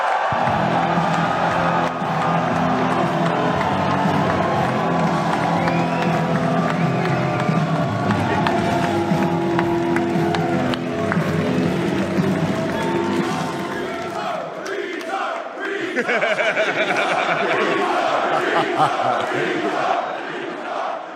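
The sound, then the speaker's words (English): An audience cheers, whoops and applauds as a comedian is introduced onstage at a comedy festival kickoff show. The loud, dense crowd roar runs throughout, and its deeper layer drops away partway through while the cheering carries on. “Everyone put your hands together for Shane Gillis!”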